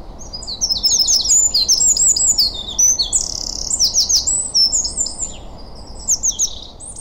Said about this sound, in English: Whatever it was, whether it was a dunnock or a wren, it was giving it full wings.